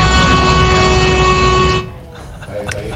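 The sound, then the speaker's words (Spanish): A sustained horn blast, loud and steady with a bright, harmonic tone, held for nearly two seconds and then cut off abruptly, leaving quieter background sound. “toma un pito. Sostenido, sostenido,”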